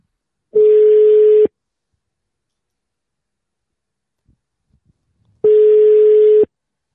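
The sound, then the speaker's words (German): Two ringing tones follow the dialing of a phone call. Each tone is an even buzz about a second long, and a long quiet gap between them holds only a few faint clicks. “So, ich habe jetzt hier eingetippt 01 Abyss und drücke jetzt hier mal auf Anrufen.”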